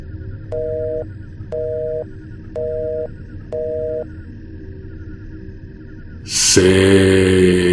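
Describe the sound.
Busy tone after a phone call is hung up: four evenly spaced, steady electronic beeps about a second apart, followed by a pause and then a sudden loud burst of other sound.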